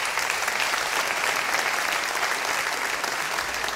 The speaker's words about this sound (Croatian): Aplauza umjetnicima nikad nije na odmet, ali čuvajte dlanove, bit će još puno prilika